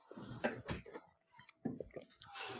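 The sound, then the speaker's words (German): A couple of soft sips of a drink, faint wet gulping and mouth noises with short pauses between them. “ich nehme jetzt einfach mal zwei Schluck, dass ich mal was ja, davon habe.”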